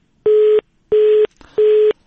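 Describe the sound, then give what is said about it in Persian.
A telephone busy tone sounds after a dropped call to a colleague in Zabul province: three identical steady mid-pitched beeps, evenly spaced, loud and alone. “تماس ما با همکار ما در ولایت زابل قطع شد”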